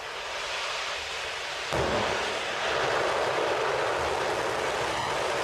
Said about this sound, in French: Allumage Vulcain, allumage EAP, décollage.